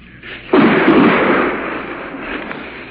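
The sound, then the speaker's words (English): Artillery shells bursting nearby in a combat zone: one loud, sudden blast with a broad rumbling roar that swells, then slowly fades over a couple of seconds, with no talk. “Seems like those artillery shells are landing in the back of my neck, whereas they were landing 200 yards to my right.”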